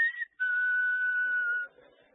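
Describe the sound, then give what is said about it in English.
A person whistles in imitation of a bird at their house: a short, high, clear note, a brief gap, then one long steady note at the same pitch that stops abruptly. “That bird at my house has whistled like that so much, he's got me doing it.”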